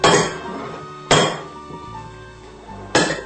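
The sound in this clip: A utensil knocks against a pan while gnocchi and vegetables are stirred together, giving three sharp metallic clinks spaced about a second or more apart, each fading quickly into a quieter low background.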